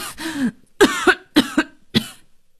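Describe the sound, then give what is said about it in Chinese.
An elderly man coughs in several harsh, raspy bouts, some of them doubled, separated by short pauses, with no talk around them. “你怎么咳嗽了？你不舒服？”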